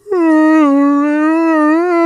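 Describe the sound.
Voice imitating a whale: one long, sustained moaning tone with a slightly wavering pitch, loud and alone.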